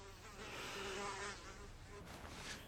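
A housefly buzzing in a continuous, faint droning hum that wavers slightly in pitch and holds steady throughout, with no voices.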